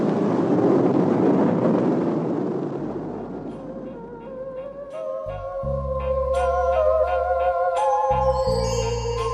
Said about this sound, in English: the whole assembly was ready for launching. Lift off.